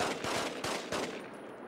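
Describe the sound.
Machine gun fire from a video game shooter with infinite ammunition: a few sharp, loud bursts in quick succession over a continuous crackling din, then thinning toward the end.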